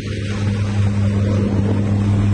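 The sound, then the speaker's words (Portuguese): Steady engine drone from a helicopter suffering an engine failure during an emergency landing in Hawaii: a loud, continuous low hum with steady tonal bands that holds unchanged throughout, with no voices. “Vamos ver um vídeo, então, de um helicóptero pousando de maneira emergencial”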